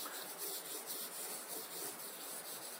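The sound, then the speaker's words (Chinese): A charcoal pencil rubs across the back of a paper sketch to transfer it, making a faint, continuous, dry scratching hiss with gentle repeated strokes. “草图做好以后啊，再把它翻到后面，再用这个炭笔，”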